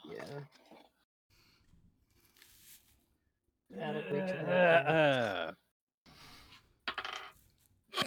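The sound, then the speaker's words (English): A twenty-sided die is rolled during a tabletop game, giving a few short, light clicks and clatters, with a person talking between them. “So you reach into the pile, roll a d20.”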